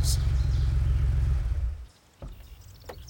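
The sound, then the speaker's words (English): A car drives toward a palatial estate, its engine giving a steady low rumble that fades away after about two seconds, leaving near quiet. “Paula drives Sam to her family's palatial estate, not knowing someone has been following her from the carnival grounds.”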